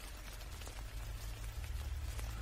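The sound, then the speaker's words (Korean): Steady rain falls around an army post at night, a dense, even patter and hiss over a low constant rumble, with no voices. “빗소리만이 주위를 감싸고 있었다.”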